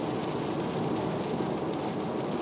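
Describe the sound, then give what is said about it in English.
Heavy rain pours down while driving over the Golden Gate Bridge, a steady, unbroken hiss of water with a low rumble beneath it and no letup. “Just over the Golden Gate Bridge. Just fucking nonstop rain up here.”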